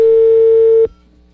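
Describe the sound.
A telephone tone follows a call being hung up. One loud, steady mid-pitched beep holds for under a second, then cuts off abruptly into faint background noise.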